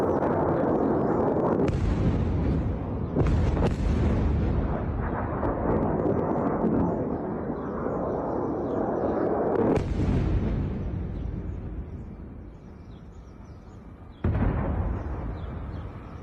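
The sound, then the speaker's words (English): Air defense interceptions in Israel: heavy explosions boom in the sky, several sharp blasts breaking over a continuous low rumble, with a loud burst near the start, another midway and a last one toward the end as the rumble fades. “This is the aerial defense systems coming at you guys from Israel, actually doing their job and shooting things out of the sky.”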